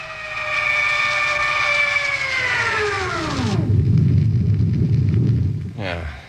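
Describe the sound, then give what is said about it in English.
A spaceship's repeller ray switches on during landing: a loud whining tone with stacked harmonics slides steadily downward in pitch, then gives way to a heavy, steady low rumble, with a brief tone near the end. “Kill rockets. Rockets out. Hit repeller ray. Repeller ray on, sir.”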